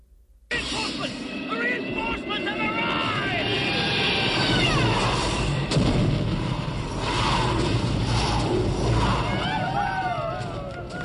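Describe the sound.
Bombs fall on enemy tanks during a battle, with heavy booms, crackling gunfire and aircraft noise forming a dense, continuous roar as voices shout through the din.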